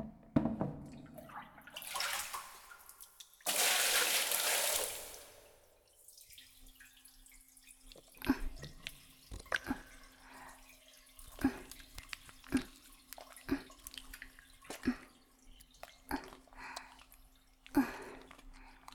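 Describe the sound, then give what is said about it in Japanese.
Water runs and splashes while someone's back is being washed. Two broad bursts of rushing spray give way to many scattered drips and small splashes, mostly faint. “座って、背中、洗うから。”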